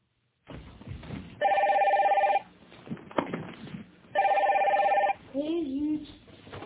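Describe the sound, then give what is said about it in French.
A telephone rings in two separate bursts, each about a second long, with quieter background noise between and after them. “répond au téléphone”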